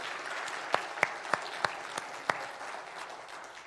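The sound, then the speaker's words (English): Soft applause rises from an audience welcoming new church members into the fellowship. A handful of sharper, evenly spaced claps stand out over a faint, continuous patter. “Let's give them all a hand and welcome into our fellowship.”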